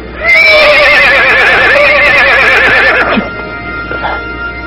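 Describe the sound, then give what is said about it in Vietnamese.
A rare, handsome warhorse gives a loud, sustained whinny with a shaky, wavering pitch that lasts about three seconds, then drops away to quieter snorts and rustling. “Ngựa đẹp quá, đúng là một con ngựa chiến hiếm có.”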